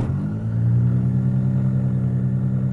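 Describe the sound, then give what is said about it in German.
A motor glider's engine starts after the ignition is switched on and the engine primed, a brief uneven catch giving way to a steady, loud, low-pitched droning hum. “So, und dann tun wir mal die Bremsklappen raus und halten ihn fest. Machen die Zündung an. Primen. Und anlassen.”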